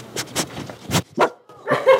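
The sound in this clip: A pet dog at a family home in Washington, D.C. barks in several short, sharp bursts, fairly loud and with no voices over it.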